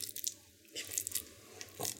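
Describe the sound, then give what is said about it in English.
Cat food being squished with a fork gives faint, wet squelching and soft crunching, a few uneven squishes over a low background hum. “The first one was cat food being squished with a fork.”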